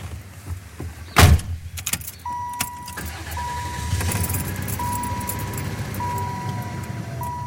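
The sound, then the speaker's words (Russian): Car sounds: a sharp thud like a door closing comes early, then a steady low engine and road rumble settles in and continues throughout, with faint intermittent tonal beeps above it. “Сегодня едем в Павловский посад.”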